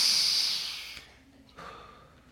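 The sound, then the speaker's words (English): An audience takes a deep breath in together, a loud airy rush of many breaths that slowly fades, followed by a softer second breathy swell. “can we just take a deep breath in right now”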